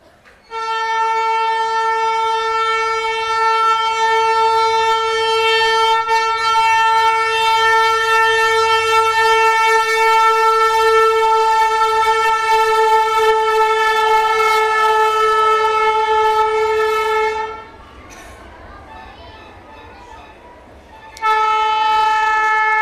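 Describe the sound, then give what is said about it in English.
Noisy passing train sounding a loud, sustained horn blast that holds steady for a long stretch, cuts off briefly, then returns. “that train? It's like a very noisy, oversized rickshaw.”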